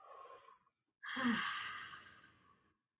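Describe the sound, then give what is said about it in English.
A deep breath: a short, soft inhale, a brief pause, then a long, breathy exhale like a sigh that slowly fades away. “how about if we all just take a moment to take a big breath?”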